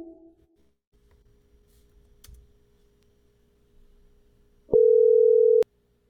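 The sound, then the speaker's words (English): A telephone dial tone after hanging up to dial back: one loud, steady, mid-pitched tone lasting about a second near the end, preceded by faint low rumbling. “It's great to be able to just hang up and dial back without delay.”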